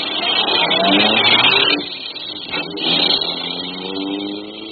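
A car engine revs and pulls away in two surging passes, its muffled drone climbing in pitch and then easing off between them.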